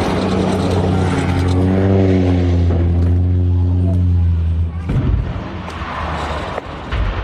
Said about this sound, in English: It's still unclear what caused a seaplane to make that remarkable emergency landing.